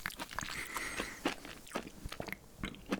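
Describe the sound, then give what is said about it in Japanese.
Chewing and biting into a segment of an early-ripening seedless satsuma mandarin: many soft, moist crunches and bites in an irregular rhythm, with no talking. “で食べてみますよ一房”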